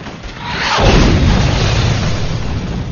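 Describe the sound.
An artillery smoke round strikes the top of a berm near the western gate: one loud, sudden boom that swells into a broad, rushing roar and holds for several seconds.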